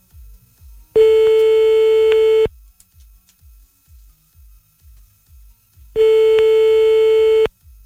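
Telephone busy signal heard while calling a number back: two long, steady, loud tones separated by a pause, with faint low clicking pulses in between and no talk.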